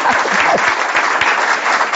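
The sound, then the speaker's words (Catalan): Audience applause at a live talk event: dense, steady clapping from many hands fills all two seconds at an even, loud level, with no voices above it. “jo sempre dic això, que l'aplaudiment és per vosaltres”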